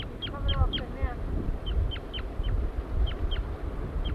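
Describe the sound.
A male bird gives flight calls near its nest: many short, sharp, high chirps come in quick clusters over a steady low rumble.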